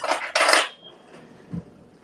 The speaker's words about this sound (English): Let me get a fork.